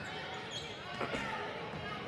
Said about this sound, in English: Cougars will dribble.